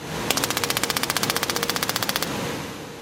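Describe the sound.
Gas-powered combustion actuators on a robot fire in a rapid, evenly spaced volley of many sharp, loud bangs lasting about two seconds, resembling machine-gun fire, over a low background hum.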